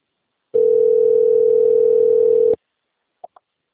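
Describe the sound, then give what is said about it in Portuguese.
A steady ringback tone from an outgoing telephone call holds for about two seconds at a single even pitch, then cuts off. Two brief faint clicks follow in near silence. “Aqui, ó, chamando aqui.”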